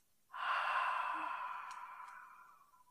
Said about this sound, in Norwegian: Og så puster vi inn gjennom nesa en gang til. Og ut gjennom munnen.